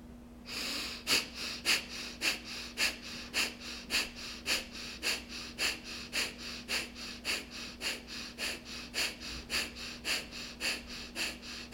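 Rapid rhythmic breathing through the nose during a fire-breath yoga exercise: many sharp, even snorting pulses, roughly two per second, over a steady low hum.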